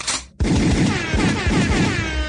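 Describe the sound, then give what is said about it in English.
Gunfire sound effect requested as a comic sting: a short burst, a brief gap, then a loud, rapid string of shots that runs on without pause. “could I have a gunshot and an air horn?”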